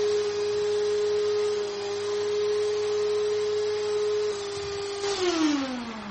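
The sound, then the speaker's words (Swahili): A dust extraction machine running in a workshop gives a steady whining tone over a low hum, and the whine slides downward in pitch during the final second as the machine winds down. “Naona kuna mashine hapa. Hii nayo ni ya kufanya nini? Hii mashine hii huwa ni ya kuvuta hii pumzi, kuvuta hizi vumbi ndani.”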